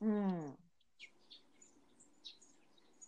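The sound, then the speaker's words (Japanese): Birds chirp in a garden that mixes Western and Japanese styles. Several faint, short, high tweets are scattered across a quiet background. “すごい鳥の声が入ってる、聞こえてくる。 聞こえます？ 鳥の声ピチュピチュ言ってる。”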